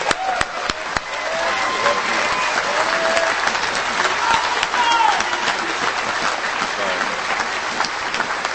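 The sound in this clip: An audience rises and applauds as preacher Dr. Jack Hyles is welcomed, with loud, sustained clapping that carries a few sharper claps near the start and stays strong to the end.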